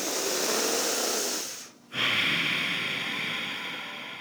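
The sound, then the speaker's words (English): Deep breathing during a yoga exercise: two long, airy rushes of breath separated by a short pause, soft and steady, with no talking. “Let's try here, four more deep breaths.”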